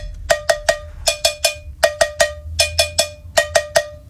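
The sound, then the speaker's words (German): Cowbell played as the percussion part of a pop song. Many bright, ringing metallic strikes fall in a steady, even rhythm of short groups, heard alone. “Und zwar die Kuhglocke. Habt ihr schon mal ein Instrument namens Kuhglocke gehört? Nein, ich auch nicht. So klingt's.”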